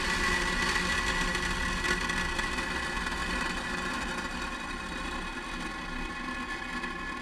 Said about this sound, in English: ignition. We have liftoff. Go Falcon 9.